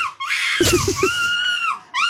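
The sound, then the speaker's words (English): A person screams in imitation of a seagull, giving loud, shrill, wailing cries with a brief choppy burst in the middle and a final short squawk after a pause. “There we go, that is somebody screaming like a seagull.”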